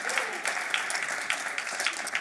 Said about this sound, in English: Ariella, round of applause